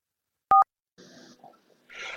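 Telephone keypad tones as a number is dialled: two short beeps in quick succession, followed by faint breathy noises.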